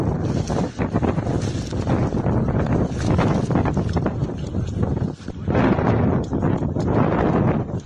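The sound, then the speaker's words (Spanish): Strong wind howls through the Sierra during a yellow alert for gusts of 90 km/h. A loud, continuous roaring rush surges and dips in gusts throughout. “Lo que están escuchando es el ulular del fuerte viento que nos está azotando en las últimas horas.”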